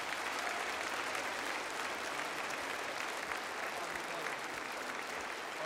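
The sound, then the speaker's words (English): A church audience applauds with dense, steady clapping that stays even and fairly faint throughout, with no break and no clear voices. “why don't we just give Brother Yun a round of applause”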